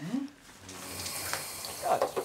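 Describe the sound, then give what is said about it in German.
Shower water running as a carer helps an elderly woman wash at home: a faint, steady hiss of water with voices talking over it. “wir gehen unter die Dusche”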